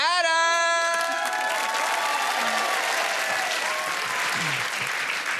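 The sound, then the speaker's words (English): An audience applauds and cheers as a guest is called up onto the stage at a live show. A high shouted whoop opens over loud, steady clapping, which continues with scattered cheers throughout. “An audience member has a problem, and we're here to solve it. So let's get him up here right now. Put your hands together for”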